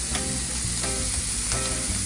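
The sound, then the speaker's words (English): Chopped spinach frying in a pan gives a steady, dense sizzle with a constant crackling hiss throughout and no talk. “now I'm gonna add in my spinach. I chopped it up so it cooks a little faster.”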